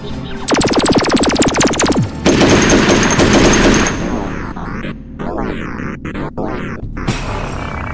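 Rapid blaster fire cutting down security robots: a fast burst of many sharp shots, then a loud, dense roaring blast that fades into lower crackling noise.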